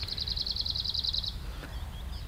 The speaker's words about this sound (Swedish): lite större än lövsångaren och mer. Sjunger den riktigt bra.